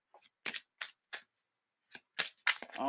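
Tarot cards being shuffled and drawn, several short, crisp papery riffles and snaps separated by brief pauses, with a longer quiet gap midway.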